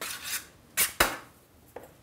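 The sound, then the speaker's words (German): Grease being brushed onto a baking tray for bread dough: a few faint, short scraping strokes against the metal, spaced irregularly. “Und wieder das berühmte Einfetten.”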